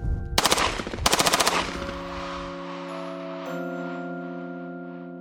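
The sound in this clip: Two rapid bursts of automatic machine gun fire, each about half a second of fast, loud cracking shots, followed by a long, steady ringing hum that lingers to the end.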